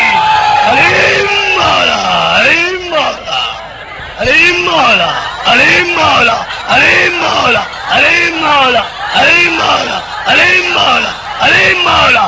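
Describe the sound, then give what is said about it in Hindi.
A crowd loudly chants the Shia slogan Nara-e-Haidari, repeating a rising and falling call many times in a steady rhythm. “लगाए नारा हैदरी”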